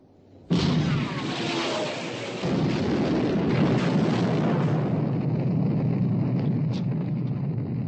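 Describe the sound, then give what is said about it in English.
Naval guns fire on a ship during a sea battle. A sudden loud blast erupts, then a heavy, rumbling roar holds steady and keeps going to the end. “Torpedo hit amidship, sir. Good man. Fire!”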